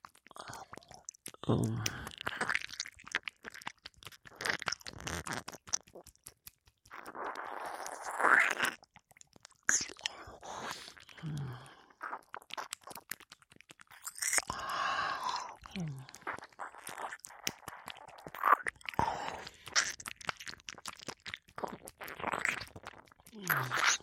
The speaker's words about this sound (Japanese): なんだ、耳なめが気に入ったのか。いいよ。ほら、